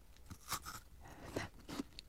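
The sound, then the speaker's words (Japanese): Crunchy bites into brown sugar-flavored ice cream and brown sugar shaved ice give a few soft, crisp crunches with quiet chewing between them. “サクサク、うん、あ、黒糖、 黒糖、 まず黒糖、 まず黒糖、 こっちに広がる黒糖シャリシャリ、 今ね、外側の黒糖風味アイスからちょっと黒糖風味のかき氷まで入りましたか？”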